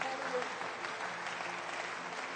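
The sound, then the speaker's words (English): An audience applauding during a church service, a soft but steady wash of many hands clapping without a break. “let's give another hand clap of love and appreciation.”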